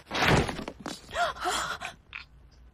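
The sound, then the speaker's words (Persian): A laptop falls onto the floor during a video call. A loud, heavy thud-and-clatter at the start is followed by several fainter bumps and knocks. “فکر کنم لپتاپش افتاد رو زمین.”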